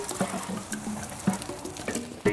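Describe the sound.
Water from a garden hose splashing onto a dry flower bed of daisies and poppies, a soft irregular patter broken by a few louder spatters, fairly quiet throughout.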